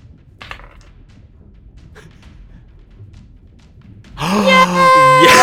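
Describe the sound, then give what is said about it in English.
A die rolled for a wisdom saving throw in a tabletop role-playing game gives a couple of brief, soft clattering knocks over near silence, and then a voice starts talking. “So roll me a wisdom saving throw,”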